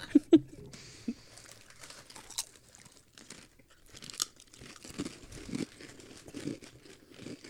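Chips crunch as they are chewed, with faint crinkling, in irregular bursts that start with a couple of sharper crunches and then continue softly.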